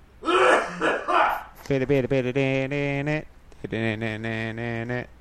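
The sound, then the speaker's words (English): A person clears their throat with a rough, noisy rasp lasting about a second. Then come voiced sounds with strong harmonics. “Because you just cleared your throat.”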